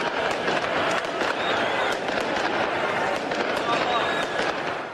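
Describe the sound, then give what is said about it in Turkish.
Dense, continuous crackling of fireworks over crowd noise as football fans celebrate a league championship with flares in Milan's Duomo square at night, the rapid bursts running without pause throughout. “Son 3 sezonda ikinci kez zirveye çıkan lacivert siyahlılar meşaleler ve havai fişeklerle geceyi aydınlattı.”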